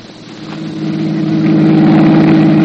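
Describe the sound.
A car engine revs while driving, its mid-pitched roar steady at first and then swelling louder over a few seconds into a continuous drone, with no voices.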